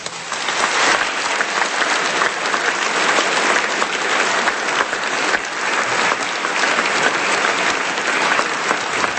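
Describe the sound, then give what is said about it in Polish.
Sustained applause from a gathered audience at a church event before Mass, a loud, uniform roar of clapping that continues unbroken from start to end. “Jeszcze raz wielkie brawo.”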